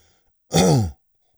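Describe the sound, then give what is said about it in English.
A single throat clearing, one rough, throaty burst lasting about half a second, loud and alone, with near silence before and after. “let me clear my throat”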